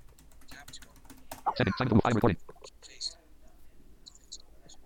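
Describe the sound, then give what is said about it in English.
A message is typed into a multi-line text field on an iPad, a scattering of light, quiet taps and clicks with a brief murmured voice partway through. “Let's type 3x4. More. Type a message to the multi-line.”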